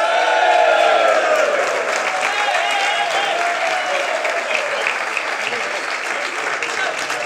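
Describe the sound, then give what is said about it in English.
Live audience applause in Westport welcoming a panel of Gaelic football pundits, a loud, continuous wash of clapping with a crowd murmur and a voice speaking over the opening seconds. “give it up for Panel Wall, Alan Dillon, Rory Gallagher, and Mark McHugh.”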